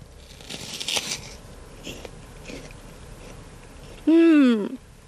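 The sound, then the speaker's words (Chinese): Teeth bite into a crisp, juicy, full-red Ruiyang apple from an orchard on the Weibei Loess Plateau. Crunchy crackles come near the start, fainter chewing follows, and a voice sounds briefly near the end. “那这个苹果的口感到底怎么样呢？我现在就来尝一尝。”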